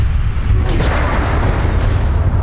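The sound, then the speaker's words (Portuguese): A voice imitates an explosion as a fantasy role-play creature is destroyed and blows up an entire plane: a loud, rough, noisy roar that holds steady for about two seconds. “destrói essa criatura e você vê que ele explode o plano inteiro. E aí ele faz um.”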